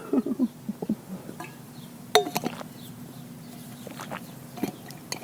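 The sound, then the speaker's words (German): A sip taken from a drink, marked by a few light clinks and taps of a glass. A sharper clink comes near the middle, with small handling sounds over a quiet background. “Ich trinke mal einen Schluck.”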